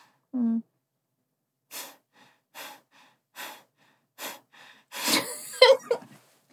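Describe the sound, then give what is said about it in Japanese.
Sharp nasal exhales as a person practises breathing through the nose with the stress on the out-breath: a brief voiced hum, then four evenly spaced puffs, a softer one, and a longer, noisier breath with a short vocal sound. “ちょっと呼吸をどんな感じかちょっと練習してみようと思います。鼻で呼吸ですよね。はい。で、あの、吐く方を意識なので、”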